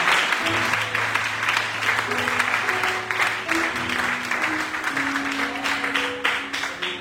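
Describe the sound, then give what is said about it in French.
A church audience applauding: dense, steady clapping from many hands that runs the whole way through, with sustained musical tones beneath it. “Est-ce que tu peux acclamer la parole du Seigneur?”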